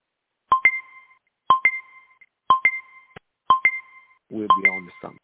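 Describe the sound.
A beeper goes off with five evenly spaced high electronic chirps about once per second, each a quick double tone, with a voice speaking over the last one.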